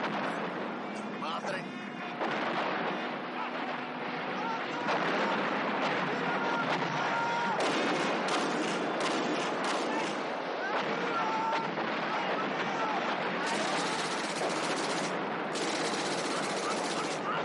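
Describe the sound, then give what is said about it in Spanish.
Machine gun fire in a battle from a 1970 war film, with soldiers shooting from vehicles and answering with submachine guns: dense, continuous rattling bursts mixed with booming blasts, a voice speaking over the din. “uno de sus compañeros asoma por la parte superior y comienza a disparar a los soldados. Estos responden al ataque con sus metralletas,”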